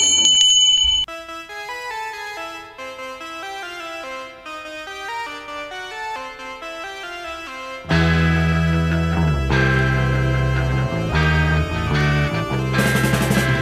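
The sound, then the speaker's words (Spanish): A bell is rung, its bright ringing tone opening a run of clear chiming notes before loud music comes in. “Es este señor con el timbre. Pues venga, dele al timbre ahora.”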